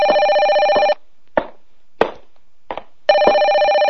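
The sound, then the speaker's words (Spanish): A telephone bell rings in two long, loud bursts, with a few short, faint noises in the quiet gap between them. “Déjeme contestar el teléfono.”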